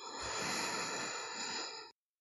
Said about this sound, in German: Also 100% einatmen, vollständig ausatmen